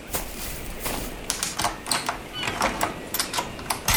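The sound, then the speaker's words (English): A key being worked in a stuck door lock: repeated dry metallic clicks and rattles in an uneven rhythm as the key is jiggled and turned. “Pull the knob up while you turn. I'm trying. My key's not working. Here, you try it.”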